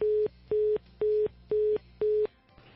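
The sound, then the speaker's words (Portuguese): A telephone busy tone sounds after a dropped call: five evenly spaced, identical steady beeps at one pitch, each about a quarter second long, before the line falls to a low hum. “Eu acho que caiu a ligação, né, Acaona? Tenta aí de novo.”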